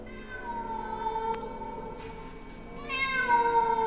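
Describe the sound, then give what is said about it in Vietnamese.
A cat gives a drawn-out, tonal yowl that holds steady and then swells louder and brighter toward the end, with no voices over it. “Con mèo dừng vặn vẹo, nhìn thẳng vào Lâm mà rít lên.”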